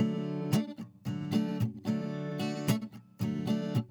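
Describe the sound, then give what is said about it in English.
An acoustic guitar strummed across several strings at once, forming chords in a steady rhythm of sharp, bright strokes with short gaps between groups of strums. “And then there is strumming, which is when you're actually strumming all of the strings or multiple strings at once, forming chords. And that sounds like this.”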